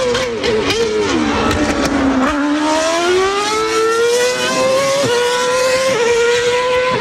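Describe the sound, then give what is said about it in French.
Formula 1 race car engines roar on a TV broadcast with a loud, continuous, high-pitched whine. The pitch climbs and dips repeatedly, with a few sudden drops like gear changes, and no break in the sound. “Si vous avez un voisin qui regarde les Grands Prix de Formule 1 sur Canal+, il est possible qu'il monte un petit peu trop le son.”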